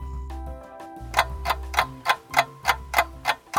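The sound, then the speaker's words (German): Morning wake-up jingle built on a ticking clock: sustained low tonal notes open the jingle, then a steady, evenly spaced run of crisp, bright ticks takes over while the tones continue underneath. “Weckruf. Genau, den hört ihr gerade an diesem Dienstagmorgen.”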